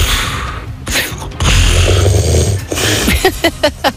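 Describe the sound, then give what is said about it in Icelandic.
A husband snoring in bed: a long, loud, rough snore with a low buzzing rattle, then a quick run of short snorting bursts in an uneven rhythm. “sendi einmitt inn þessa hrotu frá bóndunum”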